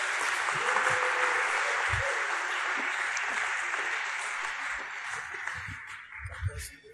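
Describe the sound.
Sustained applause from a church audience welcoming a co-preaching couple onto the stage: a dense, steady wash of clapping that holds for several seconds, then thins and fades toward the end.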